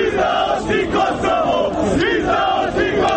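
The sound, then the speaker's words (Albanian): A crowd shouts in front of a monument during a speech by Serbian president Nikolić, with loud, rhythmic bursts of chanted yelling that repeat steadily over a continuous roar. “Nikolić shtoi se i vinte turp që ndjente brohoritje të tilla.”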